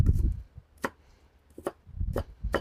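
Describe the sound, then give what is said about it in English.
A knife chops fresh onion in a few crisp, unevenly spaced strokes. Each chop is a sharp tap followed by a softer thud, and the strokes are fairly faint. “I might just get a little slice of onion here.”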